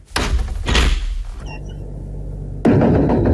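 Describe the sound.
A door being opened, heard as loud, heavy bursts of scraping and thudding with a quieter lull between them, ending on another sudden loud rumble.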